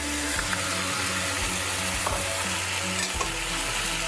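Goat, lamb and pork fry in a pot with a steady, dense sizzle, broken by a few sharper scrapes and knocks of stirring.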